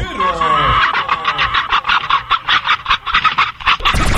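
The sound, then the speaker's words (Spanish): Hens clucking and cackling as in a henhouse, a loud, busy stream of many quick, overlapping calls with a choppy, uneven rhythm throughout. “Las demás estaciones suenan como gallinero.”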